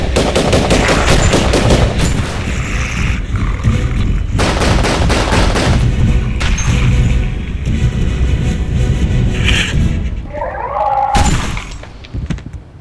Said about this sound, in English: Contact! They keep coming. Then keep shooting!